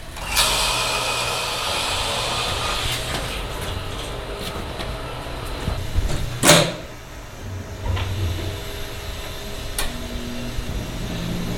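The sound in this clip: Clunks of levers, switches and valves being worked on a furnace test rig with a scrubber and gas and air lines: a few sharp knocks and clicks over a steady engine-like rumble.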